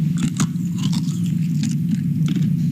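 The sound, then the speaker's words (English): Someone chews while tasting trehalose sugar, with repeated short, crackly bites over a steady low hum. “And he even gave me a taste of the trehalose.”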